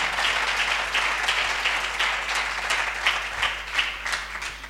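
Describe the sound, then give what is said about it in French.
Applause at a religious retreat as people acclaim God: a steady wash of many hands clapping, fairly loud and continuous, with slight rises and dips in intensity throughout. “Tu vas acclamer Dieu pour sa vie.”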